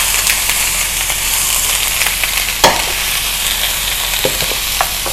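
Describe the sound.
Frozen minced meat sizzles in a frying pan with a steady, loud, dense hiss, broken by a few brief clicks and scrapes. No voices are heard.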